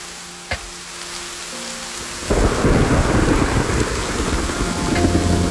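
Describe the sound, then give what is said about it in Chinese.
Heavy rainstorm with strong wind outside: after a quiet stretch with a low hum and one brief sharp crack, dense rain suddenly bursts in and keeps pouring loudly and steadily to the end. “两人谈笑间，屋外已是狂风大作，下起了暴雨。”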